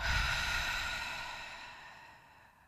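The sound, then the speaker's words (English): A deep exhale through an open mouth during a breathing exercise, a long, soft, breathy whoosh that fades gradually over nearly three seconds, quiet and alone. “take a big inhale through the nose, fill up the lungs. On the exhale, open the mouth,”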